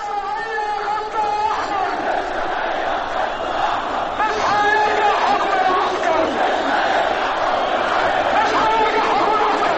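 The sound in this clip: Protesters chant in Tahrir Square in Cairo, where government opponents gathered to demand the president's resignation and rallied behind the army. The massed voices form a loud, sustained roar with rhythmic chanting throughout.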